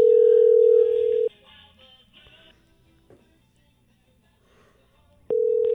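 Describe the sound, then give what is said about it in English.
A telephone dial tone heard while a number is dialed: a loud, steady mid-pitched tone cuts off into a long, quiet, faintly noisy stretch, then returns abruptly at the end. “I hope I dial the right number.”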